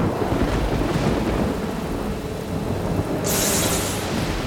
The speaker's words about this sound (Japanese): ひどい雨、 今日はだいぶ荒れそうなのよ。